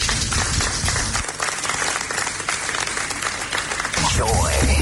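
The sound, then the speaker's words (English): An audience applauds after a speech by the Bank of Ghana's head of FinTech and Innovation at an event, with dense, steady clapping throughout and a voice heard over it. “Please, a round of applause for him once again.”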